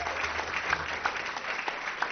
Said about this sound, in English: So we give her a round of applause as well.